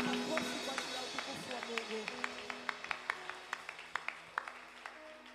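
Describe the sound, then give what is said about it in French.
Rhythmic hand clapping from a church audience at a prayer vigil, praising the Lord. Sharp, evenly spaced claps grow clearer partway through and ride over a sustained musical drone. “Nous acclamons très fort pour la gloire de notre Seigneur.”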